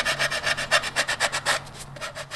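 Sandpaper rubbed by hand over a stormtrooper costume piece, with many quick, even back-and-forth strokes in a steady rhythm, a loud, gritty rasp with no voices.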